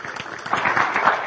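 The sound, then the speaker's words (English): A church audience applauds to welcome a speaker, a dense, steady patter of clapping that swells slightly as it goes on. “please put your hands together and let's welcome Heath Pelquin”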